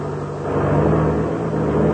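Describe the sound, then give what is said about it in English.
A light airplane's engine drones as it taxis across a field, a dense, steady roar with a low hum that swells slightly partway through, with no talk over it. “Well, we'll turn and taxi over beside it.”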